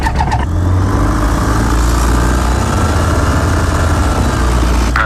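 A small airplane engine starts up and runs before takeoff: brief clicks at the start, then a loud, steady, rumbling drone that holds level to the end.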